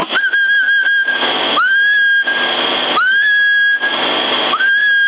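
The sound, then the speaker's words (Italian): Someone whistles over a CB radio channel in Sassari: loud, sustained whistled notes, each opening with a quick upward slide, alternating with bursts of harsh radio hiss. “Chi è che fischia? Chi è che sta fischiando, che non mi lascia mangiare in pace?”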